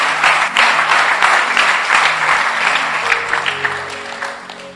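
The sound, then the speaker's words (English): An audience claps hands during a church sermon, a loud, dense burst of applause that gradually thins and fades toward the end as sustained tones come in beneath it. “You can clap your hands.”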